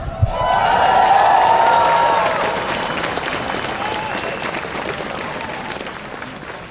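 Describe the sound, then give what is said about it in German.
Crowd clapping and cheering at a school strike protest in Erfurt against a military service law. A dense, steady wash of applause and voices is loudest early on, then eases slightly and continues. “So klang es am 5. Dezember 2025 beim Schulstreik hier in Erfurt.”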